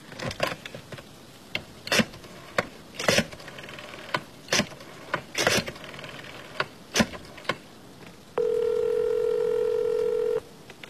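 A telephone being dialed: many sharp, separate clicks from button presses, followed by a steady, buzzing tone about two seconds long.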